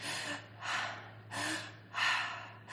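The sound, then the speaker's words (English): Strained, wheezy breathing through constricted airways: four raspy, hissing breath pulses in quick, even succession at a quiet level. “if I was going to inhale with constricted airways, I hope it can be picked up, but it should sound something like this”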